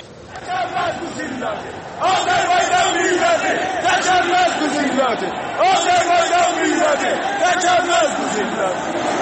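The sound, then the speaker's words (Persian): A football crowd chants protest slogans in unison at an Esteghlal versus Tractor match. Loud, rhythmic massed voices rise in waves, swelling noticeably after the first couple of seconds and staying forceful to the end. “در جریان بازی فوتبال تیم‌های استقلال و تراکتورسازی مردم شعارهایی چون آذربایجان ذلت نمی‌پذیرد سر دادند.”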